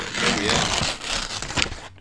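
Paper being cut and torn straight across to make a paper firecracker, heard as rough crinkling and ripping that swells in a couple of bursts and then stops abruptly.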